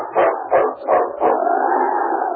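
Sled-team dogs howling in the snow: four short, rising yelps come in quick succession, then one long, steady howl that carries on alone to the end.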